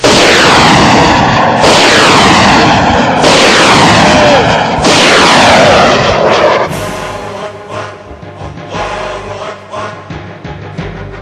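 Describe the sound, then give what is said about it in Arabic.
A weapon being fired: a few loud, booming bursts in a steady rhythm, each with a trailing whoosh, followed by a lower, rumbling, uneven tail of softer thumps. “وما رميت إذ رميت ولكن الله رمى. بسم الله ارمي.”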